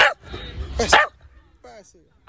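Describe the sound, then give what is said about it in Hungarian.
A small dog barks on command: one loud, sharp bark over low background noise, followed by brief voice sounds. “Jó, Csibi beszél, és kapott is érte most éppen jutalmat. Szóval jókat lehet Csibivel beszélgetni? Igen, Csibi elég hangos kutyus, szereti hallatni a hangját.”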